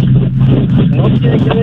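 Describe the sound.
Car noise comes through a caller's phone line as a steady low rumble and hum with a narrow telephone quality, and a voice speaks over it.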